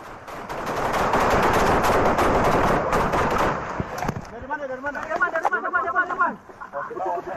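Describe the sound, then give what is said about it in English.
Rapid gunfire in footage of Indonesian soldiers under heavy fire during the West Papua conflict: dense, continuous bursts roar for about four seconds, then fade as voices talk over sparser background noise. “This unverified footage of Indonesian soldiers under heavy fire emerged over social media on Saturday, shortly after reports of a major confrontation between Indonesian military”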